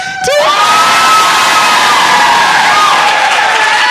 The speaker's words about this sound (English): Okay, everybody cheer.